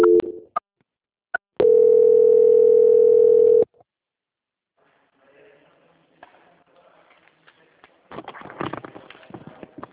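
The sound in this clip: A telephone transfer tone sounds as a call is passed to a quality control department. Short beeps come first, then one loud, steady tone lasting about two seconds. A pause follows, then faint line hiss and crackling clatter.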